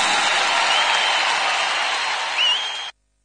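Applause from an audience for a live band, a dense, steady wash of clapping that holds evenly, then stops abruptly into silence before a short cut of sound.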